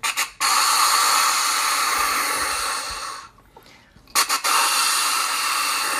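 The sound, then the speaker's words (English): Snort-wheeze deer call from Flex Tone Game Calls, blown hard: a short sharp snort opens into a long, loud, airy hissing wheeze, and after a brief quiet gap the pattern repeats. “Where's that snort? Killer wheeze. Oh, that's the killer wheeze. Wheeze. Killer wheeze. Really keyed up, ready for a fight.”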